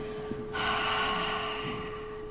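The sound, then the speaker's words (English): A deep cleansing exhale: a long, steady rush of breath being emptied out, rising suddenly after a short quiet start and holding at an even, fairly loud level. “I'm going to invite us to take three deep cleansing breaths, but we begin with an exhale. So empty everything out.”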